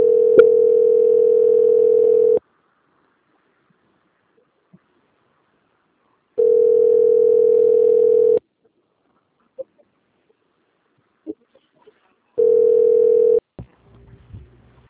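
Steady telephone tone plays while a call is being transferred. Three long, even tones of about two seconds each are separated by silent gaps of about four seconds, and the last tone is cut short. A few faint clicks fall in the gaps.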